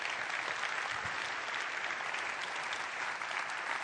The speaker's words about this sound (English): So why don't you come on up. Church, put your hands together and make him feel welcome.